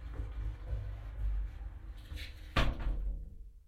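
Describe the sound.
A glass shower cubicle door being opened and then closed, with a sharp clack near the end over a steady low rumble.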